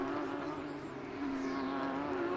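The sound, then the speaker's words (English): Faint engine drone from Porsche Carrera Cup race cars at Sebring, heard as a steady, even hum with little change in pitch as they take a right-handed turn through the esses. “McCann under pressure from Alex Sedgwick, as the two red, white and black cars come down to turn 10, turn right-handed through the S's.”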